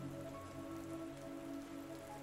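Steady rain falling on a surface, an even, continuous patter and hiss that holds at one level for the whole stretch with no voices.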